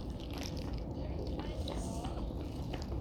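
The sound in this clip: Someone bites into and chews Famichiki, fried chicken from a convenience store, making a few crisp, moist crunches over a steady low background.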